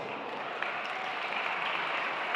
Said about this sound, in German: Ich bitte erstmal um einen herzlichen Applaus.